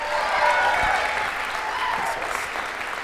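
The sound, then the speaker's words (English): Audience applause fills a room at a worship gathering: a full, continuous wash of clapping that swells slightly early, then settles into an even roar to the end. “Hey, let's give them a round of applause.”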